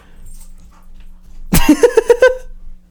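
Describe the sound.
Dog on a bed lets out a quick run of short, high yips and whimpers after a near-silent stretch, the cries loud and closely spaced before stopping abruptly.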